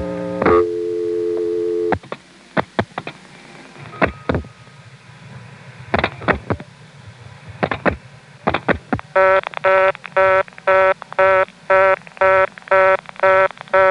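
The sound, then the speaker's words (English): Telephone dialing into an intra-office trunk, heard as a steady tone and then a few sharp, irregular dial clicks, followed by a Stromberg reorder signal: a buzzy harmonic tone pulsing on and off in rapid, even bursts until the end. “you could then dial 2 digits only to have the Stromberg reorder come on. It didn't matter which 2 digits you dialed, it would do it every time.”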